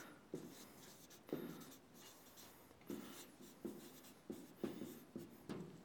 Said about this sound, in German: Vielleicht schreibe ich sogar falsch.